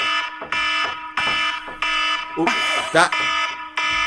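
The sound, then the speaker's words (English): An electronic alarm signals an upcoming quiz with repeated harsh, buzzing beeps in a steady rhythm. The tone is loud and harmonically rich, and each pulse is separated by a short gap. “That noise is our alarm to say that it's in a moment we'll be doing our learnability quiz where we test the expert.”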